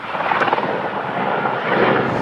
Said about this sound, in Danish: Helikoptere bevæger sig gennem kulsorte skyer og kaster vand ned på det store flammehav, der breder sig over de knastørre græsmarker.